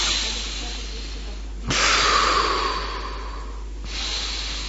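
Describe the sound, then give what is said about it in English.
Breathing as part of chanting the Gayatri mantra: one long, airy, hissing breath lasts about two seconds, and a fainter second breath begins near the end. “When you chant the Gayatri, you should breathe.”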